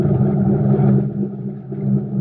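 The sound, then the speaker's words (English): A car engine dies and fails to start at a toll gate, giving a low, rough rumble that wavers and briefly drops away before rumbling again. “Hey, the motor died. I know it. She won't kick over.”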